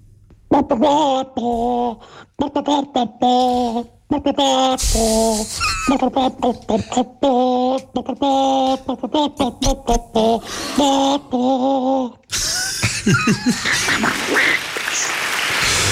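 A rock song melody sung as hen-style clucking, with many short nasal squawks in a steady musical rhythm that breaks off into a dense burst of noise near the end.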